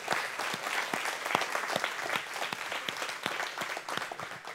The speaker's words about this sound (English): can we just give the Lord a hand real quick?